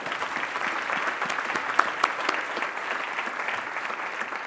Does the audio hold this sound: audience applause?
yes